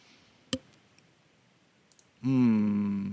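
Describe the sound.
Mouse clicks sound while exporting audio in an editor: a sharp click, a faint tick, and then a quick double click, after which a voice starts talking.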